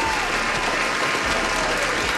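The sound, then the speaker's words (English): Audience applause, a dense and steady wash of many hands clapping at even loudness throughout, with no distinct voices standing out. “Give yourself a pat on the back and give yourself a round of applause.”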